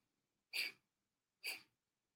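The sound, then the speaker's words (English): Two forceful exhalations through the nostrils in a yoga breathing exercise, each a short, sharp hissing burst that fades quickly, evenly spaced and heard alone against near silence. “So let's do it together. You are just focusing on forcefully breathing out through your nostrils.”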